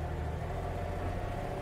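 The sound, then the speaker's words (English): A garbage truck crushing collected junk to make more space, heard as a steady, low mechanical rumble with no distinct crunches, fairly quiet and unchanging throughout. “You hear that? That's the sound of the garbage truck crushing all of the junk to make more space.”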